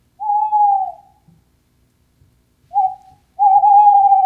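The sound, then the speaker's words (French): Tawny owl hooting: three clear, low, tonal hoots, a long drawn-out note, a gap, then a short hoot followed closely by a longer wavering one, loud against near-silence. “Donc ça, c'est un grand classique, la chouette hulotte.”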